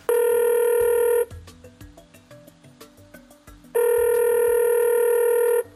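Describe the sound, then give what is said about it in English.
Telephone ringing on an outgoing call to a race winner: two long, loud electronic rings with a quieter stretch of short tones between them. “All right, dial him up. Let's do it.”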